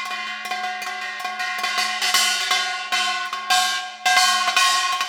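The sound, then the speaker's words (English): Rhythmic metallic strikes on a kengari, a handheld metal gong about 20 centimetres across, hit with a stick while the holding hand damps and opens it. Many bright, clangy hits ring with a sustained tone that varies in loudness, with no talk. “while I'm playing right hand with my stick to strike the rhythm on the plate or kengari. And then we make the sound with moving the left hand.”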